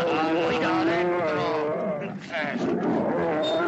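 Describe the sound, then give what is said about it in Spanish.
A bear growls in a cage, a deep, drawn-out rumbling roar with rough harmonic tones. It stays loud throughout, dips briefly midway, then swells again. “Lo encierra con el oso en la jaula.”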